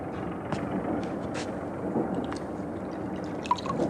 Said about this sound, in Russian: берет со стола бутылку, наливает в стакан, протягивает женщине